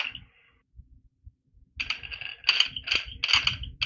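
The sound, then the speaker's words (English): Mechanical clicking from spinning the collars on adjustable dumbbells to change the weights. A few soft knocks come first, then a run of rhythmic metallic clacks and rattles that grows louder. “Spinning the thing on his dumbbells. So you can take off the heavy weight and put on the 5-pounders.”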